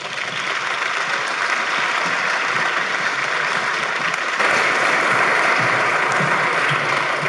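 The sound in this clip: Audience applause greets guest speakers as they are welcomed. Dense, steady clapping runs for about seven seconds with no voices and grows slightly louder partway through.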